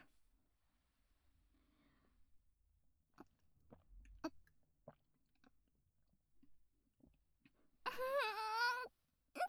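Soft, wet chewing and smacking of sticky, slimy food dressed with ponzu, heard as faint, sporadic clicks, followed near the end by a drawn-out, high voiced sound.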